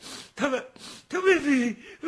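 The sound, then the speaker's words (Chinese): A man cries in a few sobbing bursts, with wavering, strained wails and sharp gasping breaths between them. “别哭哎，太他娘丧气了。你成了抱丧鬼了”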